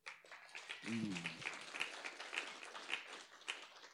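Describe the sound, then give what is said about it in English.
Faint applause for a church worship team, with soft, fairly regular claps continuing throughout and a brief voice heard near the start. “Please put your hands together for our lovely worship team.”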